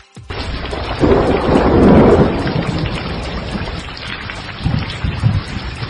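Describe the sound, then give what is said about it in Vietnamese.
Heavy rain pours down steadily while a deep thunderclap swells into a long rumble and slowly fades, followed by a second, lower roll of thunder near the end; no voices are heard. “Lại một tia chớp xoẹt qua đánh ầm một tiếng. Mưa to tầm tã trút xuống.”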